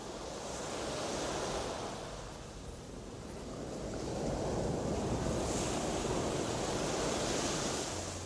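Sea waves wash onto the shore in a broad rushing surge that swells, dips, then rises into a longer sustained wash, with wind noise blended throughout.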